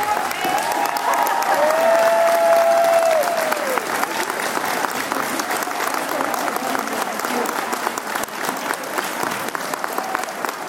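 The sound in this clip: Sustained audience applause welcoming North Carolina's governor at a school event, a dense, loud clapping that holds steady for about ten seconds.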